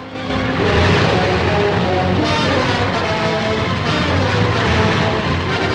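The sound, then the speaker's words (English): Propellers of Japanese warplanes whirring into action on an airfield: a loud, continuous droning engine roar with a steady low hum underneath, holding an even level throughout. “On an airfield, the propellers of planes whir into action, and men run towards them.”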